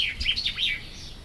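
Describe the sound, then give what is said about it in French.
A bird chirps a short run of quick, high, sweeping notes, soft and alone against a quiet, cool shaded background. “et un oiseau”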